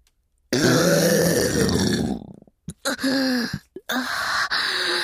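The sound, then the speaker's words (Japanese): A woman burps into a listener's ear with one long, loud, low rumbling burp. A few shorter, broken burps and breathy gasps follow. “人様のお耳にゲップを吐きかけるなんて普段なら絶対にやっちゃいけないことなのに”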